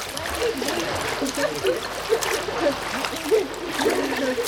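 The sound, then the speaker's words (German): Splashing water from children swimming in a pool, a continuous, fairly loud churn of small splashes and trickles with repeated stronger surges. “Und jetzt schwimmen wir zum Rand.”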